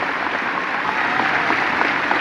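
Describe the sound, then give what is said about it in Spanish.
Crowd applause at the inauguration of a renovated sports venue in Paysandú, a thick, continuous wash of many hands clapping at a steady, fairly loud level. “La verdad, un aplauso para todos los que hemos venido.”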